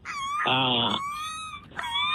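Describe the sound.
A human voice imitates a small dog crying: a high, thin whimpering whine, broken in the middle by a lower, louder moaning cry, then rising back into the high whine.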